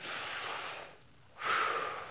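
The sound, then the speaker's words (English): A church audience taking a deep breath together, two long, airy breath rushes separated by a short pause, the second slightly louder. “everybody just take a deep breath with me.”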